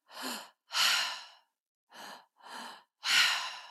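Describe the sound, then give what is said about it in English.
Deep breaths from a breathwork exercise, drawn into the lower belly and chest and then let out through an open mouth: five airy, rushing breath sounds in an uneven rhythm, some short and some long, with no talking. “But you breathe deeply into your lower belly, then your heart space, and then out your mouth. So it's all open mouth.”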